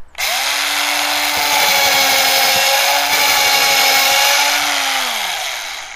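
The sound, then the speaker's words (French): Loud electric drill motor whirring steadily for about six seconds, its hum spinning up at the start and sliding down in pitch as it winds down at the end. “Une perceuse, peut-être? Oh non. Une perceuse, ça fait beaucoup plus de bruit. Écoute.”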